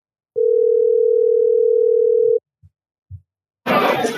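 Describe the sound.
An outgoing phone call's ringing tone sounds as one long, steady, loud tone of about two seconds. A few soft thumps follow, then a burst of loud, noisy background sound.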